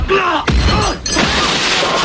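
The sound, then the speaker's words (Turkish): Sharp cracking impacts as a car side mirror is kicked and shattered during a road-rage altercation between two drivers in Pendik, Istanbul; two loud, abrupt breaking hits stand out against a noisy background. “Savurduğu tekmeyle aracın aynasını paramparça etti.”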